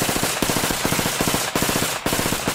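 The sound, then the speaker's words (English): Automatic gunfire from an M16 rifle: loud, rapid strings of closely spaced shots broken by brief pauses into several short bursts. “This is the sound of an M16.”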